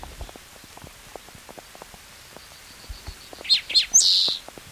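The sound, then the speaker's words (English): Rain falls in a soft, steady patter of many scattered drops throughout, and a few loud bird chirps break in near the end. “It's raining again.”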